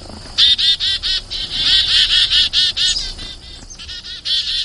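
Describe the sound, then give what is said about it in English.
Chickadee alarm call: many emphatic, buzzy 'dee' notes in rapid succession, high-pitched and loud over a quiet background, with one short pause near the end. “this is the chickadee alarm call. And it's a dee-dee-dee-dee call, and you can tell there's an emphasis to the call.”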